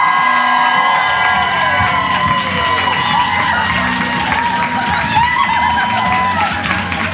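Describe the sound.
A studio audience cheers, whoops and applauds a guest's entrance on a dance-entertainment show, a dense, loud wall of clapping and shouting that holds steady throughout.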